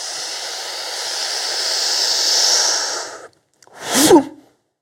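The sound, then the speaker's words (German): A long, steady in-breath taken during a breathing exercise makes a smooth, airy hiss for about three seconds. After a brief silence comes a shorter, louder breathy sound with a voiced edge. “Einatmen. Ausatmen. Ein.”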